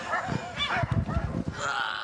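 Sled dogs bark and yip in overlapping bursts as a mushing team works up a hill. The barks come quickly and densely with no clear pauses, and the sound stays fairly loud throughout.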